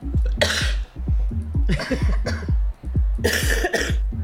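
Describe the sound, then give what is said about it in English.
Recorded wet, sloppy hacking coughs, played as sound drops, arrive in a rapid series of many harsh, gurgling bursts, with a few louder, fuller fits standing out among the rest. “hacking up a lung like a man. Those ones that sound wet and sloppy.”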